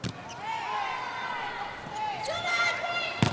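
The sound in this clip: Chinese volleyball player Wang Yue serving in an Asian Championship match: a sharp hand-on-ball strike near the end, with a brief thump at the start and a commentator talking throughout.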